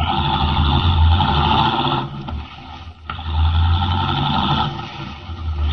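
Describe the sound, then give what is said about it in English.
A car engine roars steadily as it drives rapidly away from a road, dipping briefly midway before surging loud again. “Leaving the Teufel standing in the road, Henry Miller, the Atom Man, drives rapidly away.”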